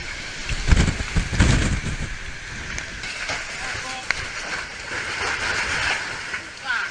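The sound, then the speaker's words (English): Roaring storm winds of 325 km/h sweep through a village on Koro Island as a house is carried away. A loud, continuous rushing roar surges in gusts, strongest near the start. “That's the sound of 325 kilometer per hour winds and a house being picked up and disappearing in the storm”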